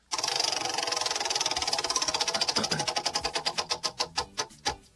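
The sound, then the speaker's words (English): A prize wheel being spun: rapid, loud ticking from its pointer that gradually slows into distinct, widely spaced clicks, ending with one last click. “I'm going to go ahead, pass the wheel over here. I'm gonna give it a spin.”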